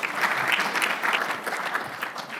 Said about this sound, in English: So, if you can now please join me in welcoming our host for the evening, the Pro Vice Chancellor for Research, Professor Jonathan Knight.